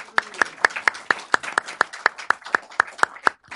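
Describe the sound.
Applause thanking a panel at the end of a talk: thin, evenly paced clapping of about fourteen crisp beats over a soft wash of scattered claps.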